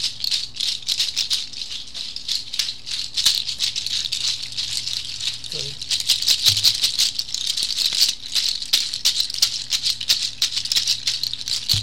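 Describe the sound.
Rattle of dried llama hooves worn on the wrists or calves while dancing gives a dense, continuous bright clatter of many small clacks, loud and busy throughout.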